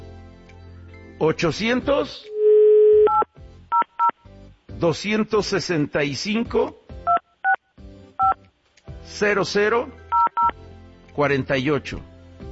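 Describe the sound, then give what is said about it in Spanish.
A toll-free number is dialed on a telephone keypad. Short touch-tone beeps come in small groups between stretches of Spanish talk, and a longer steady tone sounds early on. “A ver, desde ahorita igual y hay alguien, voy a marcar.”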